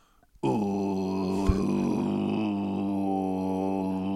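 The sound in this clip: A voice imitates a didgeridoo through throat singing: a low, buzzing drone starts after a brief pause and holds steady for about four seconds, with one short click midway.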